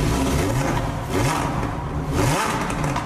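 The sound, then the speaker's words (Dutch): A Lamborghini Huracan STO's naturally aspirated V10 engine revs hard: a loud, continuous roar with a few rising surges in pitch. “Atmosferische V10, nee? Het moet gewoon, een Lamborghini klinkt zo.”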